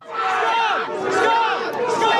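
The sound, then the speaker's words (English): Protest crowd yelling at police: many voices shout and call out at once in a loud, continuous, dense wall of overlapping cries. “The police rush this crowd that is just standing there yelling things at them.”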